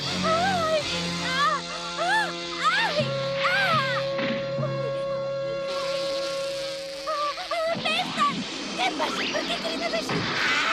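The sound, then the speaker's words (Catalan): A bee buzzing in a steady, high drone that holds for several seconds, with a voice crying out in alarm around it. “Auxili, que m'ataca una abella!”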